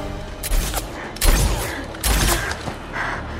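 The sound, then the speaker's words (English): Gunshots in a film firefight set in an alley: a few sharp, booming shots at irregular intervals, with fainter cracks and rumble between them. “He shoots at her.”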